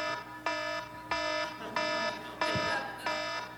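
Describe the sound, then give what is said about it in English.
An electronic alarm clock going off with five evenly spaced, loud buzzy beeps, each a bright harmonic tone of steady pitch separated by short gaps. “Your alarm, if you're like anybody else, probably sounds like that.”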